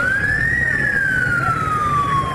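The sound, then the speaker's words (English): An ambulance siren wails as the vehicle rushes to a general hospital in Yaoundé, Cameroon. It is one loud, steady tone that rises slowly and then falls gradually in pitch, over a low rumble. “This ambulance rushed to the Yaoundé General Hospital last month”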